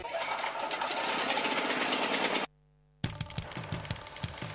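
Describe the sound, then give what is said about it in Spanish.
A diesel power generator runs with a steady mechanical drone and rapid rhythmic knocking. The sound drops out briefly midway, then resumes with regular thumping beats. “¡Qué calor! ¿De cuánto es este grupo? ¿Podemos poner un aire acondicionado con este grupo? Grupo Electrógeno. Ruido y luz versus silencio y oscuridad.”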